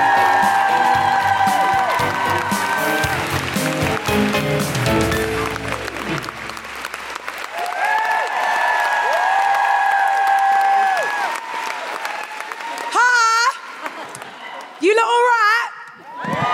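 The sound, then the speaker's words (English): An audience at a live comedy show during International Women's Day week claps and cheers loudly for an arriving comedian. Music plays underneath for about six seconds, then the applause fades and a voice talks. “Put your hands together and make extraordinary, welcoming International Women's Day Week noises for the wonderful London Hughes!”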